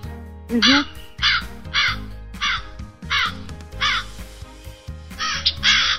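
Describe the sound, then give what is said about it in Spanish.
A crow caws repeatedly, giving many harsh, rasping calls spaced in an irregular rhythm over a low background rumble. “vamos a ver si puedo encontrar aquí el graznito de un cuervo, ¿Sí lo escuchas? Sí. Ese es el cuervo.”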